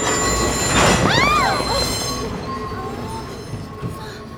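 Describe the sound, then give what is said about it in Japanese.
Train wheels squeal during an emergency stop of a passenger train short of Meidaimae station: loud, high screeching tones arc up and down over a heavy rolling rumble, then fade to a quieter steady hum. “この電車緊急停止いたしました、安全の確認が取れ次第の発車となります。”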